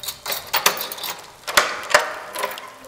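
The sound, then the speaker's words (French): A key turning in the lock of a wooden box as the box opens: a few sharp mechanical clicks and ratchet-like rattles, moderately loud, over a faint hiss. “Elle sort la clé, la met dans la serrure de la boîte qui s'ouvre sur une carte.”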